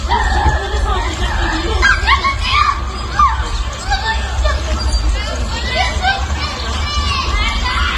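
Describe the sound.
An aggressive dog barking and yelping in a park, recorded by a security camera, amid continuous children's shouting and crowd noise, with people talking throughout.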